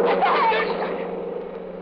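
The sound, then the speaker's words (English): A car speeds away, its engine noise loud at first and then fading steadily over about two seconds. “Whoever's driving that car was in a big hurry. Oh, he almost hit you.”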